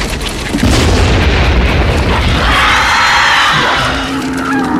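Bomb explosion: a deep, heavy boom bursts in after a brief lower rumble, then swells into a loud, sustained roar that rolls on for several seconds before slowly easing.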